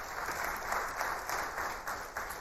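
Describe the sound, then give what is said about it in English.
A church audience applauds a guest speaker. The clapping is faint and even, a steady patter with a loose, irregular pulse. “you can give him a round of applause”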